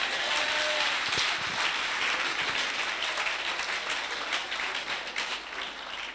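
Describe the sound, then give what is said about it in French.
Church audience applauding during a French-language sermon, a thick, continuous roar of clapping hands that stays fairly level and eases slightly near the end. “Est-ce que quelqu'un peut acclamer pour Jésus?”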